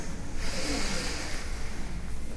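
A deep inhale during a lying yoga bridge exercise, heels drawn in and ankles held: a steady, breathy rush of air that lasts the whole stretch at moderate level, with no talk over it.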